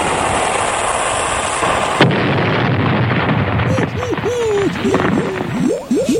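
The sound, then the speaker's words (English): Cannon fire explodes as a dense, loud roar of noise. A sharp jolt near the middle gives way to rumbling, and a run of short whistling tones sweeps through the later part. “Fire one, Captain.”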